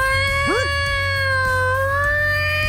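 A puppy howls along to rock singing from a video. A long, steady, high tonal wail drifts slightly in pitch, with a brief yelping glide near the start, over a low continuous hum.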